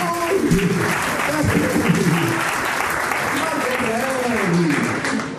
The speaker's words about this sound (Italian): Ha fatto un applauso, cacchio.